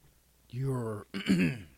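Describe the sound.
A person clears their throat in two rough, voiced bursts separated by a brief pause, the second one harsher and more strained than the first.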